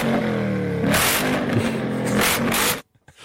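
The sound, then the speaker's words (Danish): A Corvette sports car engine revs with a loud, throaty roar and a low hum at first, then a harsh, noisy rasp, before it cuts off abruptly near the end. “Det er en Corvette.”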